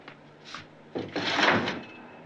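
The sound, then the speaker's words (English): A window slides open with a brief rumbling scrape lasting about a second, preceded by a faint light knock. The sounds are fairly quiet, with no voices. “then goes over to the window and slides it open.”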